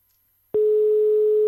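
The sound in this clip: Telephone busy signal on an unanswered call: after a short silence, a single steady mid-pitched tone sounds clearly for about one second, then stops abruptly.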